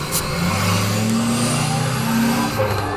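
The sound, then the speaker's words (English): A truck races by outside with a loud, continuous engine roar that fills the whole clip, its tone shifting slightly as it passes. “Perfect timing for that truck to race by outside. Very perfect timing. I wonder how much of that picked up on the mic.”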